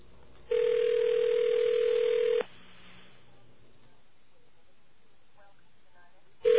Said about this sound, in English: And we're going to call the 9X voicemail number for the 989 exchange. And we're doing this live on the radio. Listen carefully.